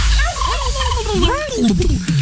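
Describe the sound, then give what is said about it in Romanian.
A turkey gobbles in a rapid, warbling burst of swooping, throaty calls that run loud and continuous for about two seconds. “chiar acum poți câștiga un curcan de 15 kg de la Beneș. Treci pe curcan!”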